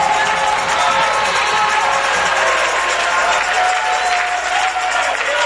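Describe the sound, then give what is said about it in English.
A church audience cheers, claps and shouts during Pentecostal-style worship. The loud, sustained roar of many voices and hands carries evenly from start to finish. “I've got to tell you again how important it is for you to get on your feet and shout with a loud voice and make a joyful noise unto the Lord.”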